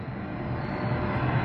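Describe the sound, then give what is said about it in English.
Airplanes passing overhead near Kennedy Airport, heard from an outdoor sukkah: a steady, broad engine roar that holds level and fairly loud throughout, with no other sounds. “with the airplanes going over my sukkah here”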